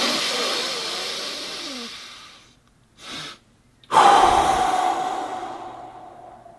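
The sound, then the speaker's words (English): Breathing exercise with a double inhale: a long breath drawn in, a short pause, a brief extra sip of air, then a long, loud exhale that slowly fades. “when you're at the end of the inhale, you stop there for a second and you inhale a bit more. So this is exactly what it looks like.”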